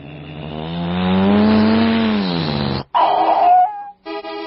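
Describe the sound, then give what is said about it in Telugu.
A car arriving: a loud, sustained engine drone swells and then holds steady before cutting off abruptly, followed by a few short tonal bursts. “అదిగో ఏదో car వచ్చింది”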